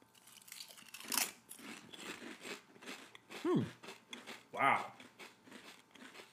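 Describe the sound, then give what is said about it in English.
Crunching of spicy chili-flavored Sun Chips as they are bitten and chewed, with a few sharp crisp crunches and short low voiced sounds between the bites. “A lot of chili powder. They're kind of spicy. These are delicious. These are the best Sun Chips I think I've had.”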